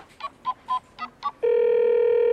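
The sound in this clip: Telephone call being placed: five short dialing beeps in quick, even succession, then a steady, loud tone that holds unbroken to the end.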